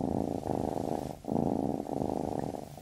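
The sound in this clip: A cat purrs in a soft, steady, low rumble that swells and dips in a regular rhythm, with brief pauses as it breathes. The purr is heard alone.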